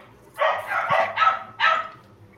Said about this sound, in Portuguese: o cachorro muito latindo no meio do mar